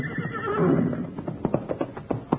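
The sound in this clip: A horse lets out a whinny, followed by a quick, rhythmic run of hoof clip-clops.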